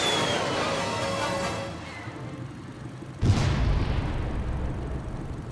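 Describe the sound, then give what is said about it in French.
A sci-fi missile is fired at a spaceship and explodes: a sustained hissing roar fades, then an abrupt loud blast hits at about three seconds and leaves a heavy lingering rumble. “Faites feu à mon signal. Ce sont des cibles idéales. Feu ! Missile là.”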